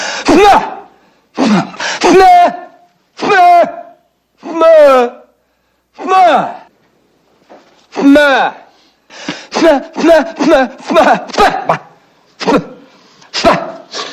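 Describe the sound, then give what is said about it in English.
Strained vocal grunts and moans from a man forcing pressure into his head to clear his ears in a coffee shop: many short, harmonic, throaty bursts with wavering pitch, separated by brief gaps and growing quicker toward the end. “I'm trying to clear up my ears. You create a pressure inside your head. It opens up the eustachian tube.”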